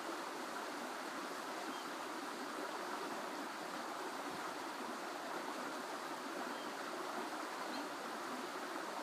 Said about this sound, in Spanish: El sonido del agua que acompaña esta sesión de Yoga Nidra es el agua de un pequeño río que corre desde la montaña hacia el lago.